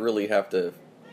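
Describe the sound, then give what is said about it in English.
A domestic cat meows, giving a short run of bright, wavering meows that rise and fall in pitch and then trail off into quiet. “That's my cat, Tinker Potts, everybody. She always needs to chime in.”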